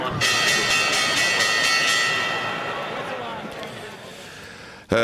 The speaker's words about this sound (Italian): e adesso facciamo la borsa, una campanella, me la date?